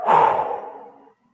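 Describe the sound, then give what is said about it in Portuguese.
A deep breath through the nose is released in one breathy, airy rush that starts strong and fades away over about a second, alone and without talk. “Feche os olhos e faça uma respiração profunda. Inspira pelo nariz profundamente. Prende e solta.”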